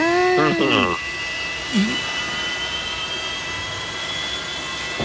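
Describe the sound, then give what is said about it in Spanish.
Steady roar of an airplane taking off, played as the opening sound of a nightclub night: a broad continuous rushing noise with a sustained high whine, with brief tonal sounds at the very start. “comenzaba con este sonido, mirá. Como que el avión tomaba vuelo.”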